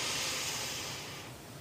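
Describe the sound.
A long, deep inhalation is heard alone as a soft, breathy hiss. It is fairly faint and gradually fades as the breath draws in.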